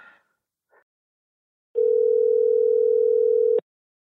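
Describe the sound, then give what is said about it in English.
A telephone dial tone sounds while a call is placed: a steady, unbroken tone of about two seconds that stops abruptly, preceded by a couple of faint brief clicks. “So I'm going to give him a call up now”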